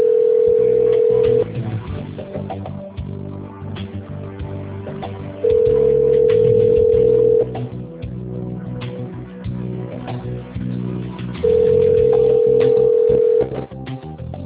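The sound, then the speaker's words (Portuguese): Ringback tone on a telephone line while a call is being transferred: three long, steady beeps at even intervals, each about two seconds, over a faint continuous background sound. “Por favor, aguarde. Estamos direcionando a sua ligação. Você já será atendido.”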